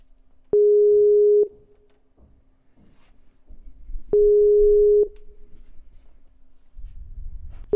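Telephone call tones for an incoming call: two steady, mid-pitched beeps about a second long, spaced several seconds apart, with a third beginning at the very end, over faint low background rumble.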